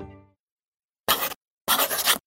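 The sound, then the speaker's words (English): Quill pen scratching on paper: a few dry, bright scraping strokes, each a short burst of rasping friction separated by brief pauses, with no talk. “Lord Dunmore sat down and put his quill to paper.”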